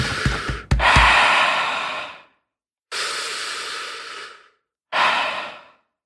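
Deep breathing: three loud, airy breaths, the first long with a brief snort-like catch, followed by two shorter, evenly spaced exhalations with silence between them.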